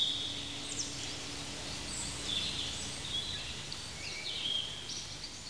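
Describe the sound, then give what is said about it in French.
Faint birdsong in gentle countryside with grass underfoot: a few short, high chirps scattered over a soft, steady background hiss, with no voices. “nous nous trouvons maintenant au milieu d'une douce campagne. Il y a des oiseaux, il y a sous nos pieds de l'herbe”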